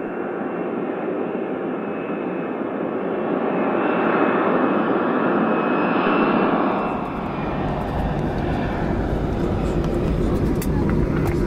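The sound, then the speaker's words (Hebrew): Passenger airplane landing at Ben Gurion airport near Tel Aviv: a loud, steady engine roar runs throughout, swells slightly midway, then turns into a deeper rumble with a crackling rattle for the last few seconds. “רבותיי, ברוכים הבאים לישראל. נחתנו זה עתה בנמל התעופה בן גוריון של יד תל אביב.”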